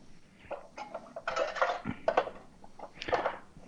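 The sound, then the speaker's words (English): Metal cans clink and scrape as an 8-ounce can is stuffed inside a 10-ounce can during cooking, with several quick knocks and rattles at a fairly quiet level. “I just stuffed an 8-ounce can into a 10-ounce can.”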